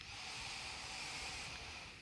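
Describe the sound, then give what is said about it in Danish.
A slow inhale through the nose during a yoga class: a faint, steady airy hiss lasts about two seconds, easing slightly at the end. “Find endnu en indånding gennem næsen.”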